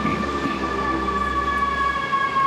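An emergency vehicle siren sounds continuously through the whole clip, a steady high tonal wail with bright overtones held over a constant low rumble.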